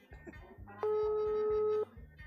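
A telephone ringback tone sounds as a call waits to be answered: a single steady, loud ring lasting about a second, set over a soft, repeating, low rhythmic background.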